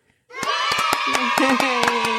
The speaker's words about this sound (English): Yay! Yeah. We clap for everyone. We like to applaud.